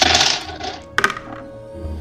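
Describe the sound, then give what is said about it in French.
Dice rolled during a tabletop role-playing game session, a brief clattering rattle of small dice with a few sharp clicks as they settle, following a rush of earlier noise. “Ah, j'ai trouvé d'autres dés. Je vais les tester ceux-là.”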